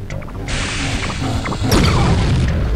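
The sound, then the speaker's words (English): A missile fired in a video game bursts out as a loud rushing whoosh, then a heavy boom that crashes in and sustains to the end over noisy game background. “Now if I want to fire a missile, I get him positioned, and I press the space bar.”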